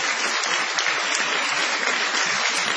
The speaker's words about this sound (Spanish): Vamos a extender la ovación para honrar a Patricio Barton.